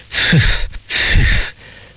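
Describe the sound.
Voice imitating an elephant puffing and snorting: two loud, breathy blasts of about half a second each, each opening with a low grunting rasp, separated by a short pause.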